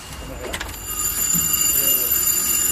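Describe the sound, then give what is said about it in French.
A stuck alarm bell ringing on without stopping: a thin, high, steady tone that holds through the whole clip, with some louder rustling noise near the start. “Attends, il y a la sonnerie qui s'est coincée.”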